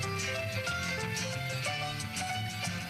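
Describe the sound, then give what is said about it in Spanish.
Theme tune of the Onda Madrid radio station from 1985, played as dense, quiet instrumental music with sustained melodic tones over a busy rhythmic bed. “Y esta queremos que sea, desde hoy, nuestra sintonía. Su sintonía suena así.”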